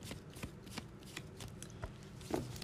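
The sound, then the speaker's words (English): Tarot cards are shuffled by hand in a series of quick, soft riffling and slapping bursts. The rhythm is uneven and the sound stays fairly quiet throughout. “So with that said, let's pull some cards for the week ahead for some tarot guidance”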